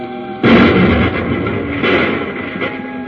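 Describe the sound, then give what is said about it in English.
Explosion set off with explosive pellets from a hand detonator in a cavern: a sudden loud boom bursts out and rumbles on, followed by a second heavy burst and a smaller crackling thud. “I'll use a few explosive pellets from this hand detonator.”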